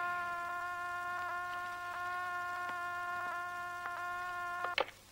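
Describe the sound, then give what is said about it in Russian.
An apartment-building intercom call buzzes as a faint, steady harmonic drone that holds unbroken. Soft clicks come at intervals, and a sharper click lands near the end. “Вызов по домофону.”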